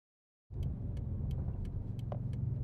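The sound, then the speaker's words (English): A car driving on a highway while approaching an exit, its low engine and road rumble starting abruptly and holding steady. Faint, regular ticking clicks sound over the rumble. “Okay, take the blinker, take the exit here.”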